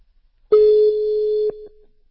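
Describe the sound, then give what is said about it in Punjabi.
A telephone ringing tone sounds while someone places a call: a single steady, mid-pitched electronic tone lasting about a second, loud against silence, then a brief softer tail. “ਮੈਂ ਉਹਨਾਂ ਨੂੰ ring ਮਾਰ ਦਿੱਤੀ ਆ ਉਹਨਾਂ ਮੈਨੂੰ back call ਕਰ ਲੈਣੀ ਹੈ”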